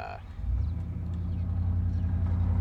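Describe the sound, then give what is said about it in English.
Big trucks drive by, a deep, steady engine rumble that swells in after a brief quieter start and holds loud to the end. “we hear big trucks go by”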